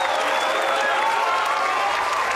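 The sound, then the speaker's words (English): Applause for the winner of a quiz: dense, steady clapping that holds at an even level for the whole stretch, with no clear pauses. “You got the lollies, or at least the virtual lollies, and the applause.”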